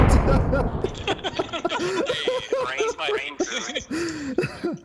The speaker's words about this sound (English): Oh, there go. Got him. Gunshot.